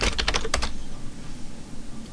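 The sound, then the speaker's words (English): Typing on a computer keyboard: a quick burst of several clicky keystrokes in the first moment, then only a low steady hiss. “See, if I type in Paul Smith, look who comes up.”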